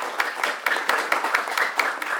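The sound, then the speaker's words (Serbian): Rhythmic audience applause welcoming an actor of the Kragujevac theatre before a poem recital, many crisp, evenly spaced claps in unison at a lively, steady beat, moderately loud throughout. “Ajde jedan aplauz za njega.”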